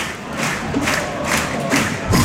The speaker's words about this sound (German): Und Vaduz-Fans klatschen da jetzt vor uns.